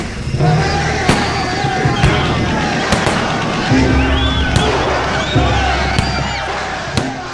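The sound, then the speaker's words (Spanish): Troops open fire on a crowd in a town square: several sharp, loud gunshots crack at uneven intervals, with shouting voices and crowd commotion between the shots. “Tienen 2 minutos para retirarse en la plaza o abriremos fuego. ¡No nos iremos! ¡Es la última oportunidad! ¡Desalojen la plaza! ¡De aquí no se va nadie! ¡No! ¡Fuego!”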